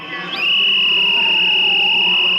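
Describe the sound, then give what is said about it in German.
A shrill whistle or siren tone in the Hungarian parliament chamber during an opposition protest; it sweeps up briefly at the start, then holds a loud, steady high pitch to the end. “Tumultartige Szenen im ungarischen Parlament. Pfiffe und Sirenen schalten durch den Plenarsaal”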